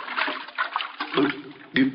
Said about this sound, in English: I'll drown myself. I'll throw myself in the brook. Here goes.